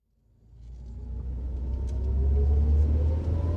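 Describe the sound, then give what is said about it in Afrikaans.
A car drives along a road. A low engine rumble swells up from near silence and settles into a steady, full drone, with no voices over it. “Hoekom bestuur jou ma? Omdat Cindy 'n migraine het. Kyk waar jy ry.”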